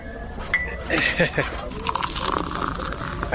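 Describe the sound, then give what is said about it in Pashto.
Tea is poured into a cup: a few light clinks, then a steady stream of liquid that continues to the end. “وایم اصیل سړی ته صبر چې یوه پیاله چای درته واچوم چې ستړی شوی به.”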